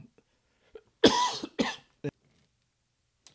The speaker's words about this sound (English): Apologies for that cough a minute ago.